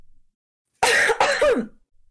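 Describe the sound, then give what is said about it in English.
A deliberate, pointed cough performed for a character: a loud, throaty pair of bursts in quick succession, the second with a voiced, wavering tail. It stands alone between quiet stretches, with no talking. “So she coughs passive aggressively.”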